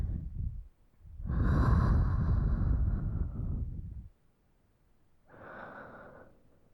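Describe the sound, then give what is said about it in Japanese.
Deep breathing in and out during a guided breathing exercise: a brief breath, then a long, loud, rushing breath, and after a pause a softer, shorter one, with no talking. “吸って吐け。”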